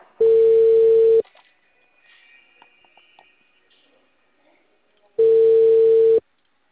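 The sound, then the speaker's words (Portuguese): Telephone line tone heard while placing a call: two steady, mid-pitched one-second tones separated by about four seconds of near-quiet with faint background noise. “só abaixa um pouquinho a caixa aqui para mim fazer uma ligação?”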